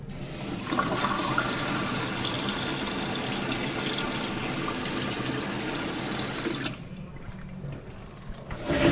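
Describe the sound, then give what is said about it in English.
Running tap water as hands are washed before fingerprinting, a steady hissing rush that holds for about seven seconds and then cuts off, leaving quieter faint noises. “So for this one to work, you need to wash your hands.”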